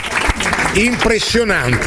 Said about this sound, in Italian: solo Homer al centro per Shervin Newton, che viene applaudito sportivamente anche dal pubblico di Parma.